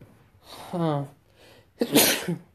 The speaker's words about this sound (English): sneeze. A sneeze. A sneeze.